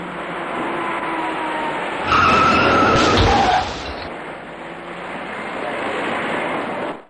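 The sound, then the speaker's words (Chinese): A dark small passenger car speeds up and skids into a three-car rear-end collision on the northbound Third Ring main road under Panjiayuan bridge. A loud, harsh burst of skidding noise rises mid-clip over steady traffic roar. “前面的车明明已经减速停下，他却完全忽视，转眼间酿成了一起三车追尾的事故。”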